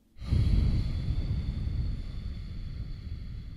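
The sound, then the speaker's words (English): A single long, loud breath during a paced breathing exercise, starting abruptly and then slowly tapering off as it is drawn out over several seconds. “Inhale for five. Hold for five. Exhale for five.”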